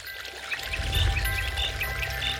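Water flowing in a cool stream, a steady full rush with a trickling, bubbling texture and a few light bird chirps above it.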